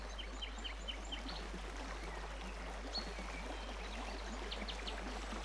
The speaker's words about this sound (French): Vous entendez les oiseaux, le vent et une petite rivière.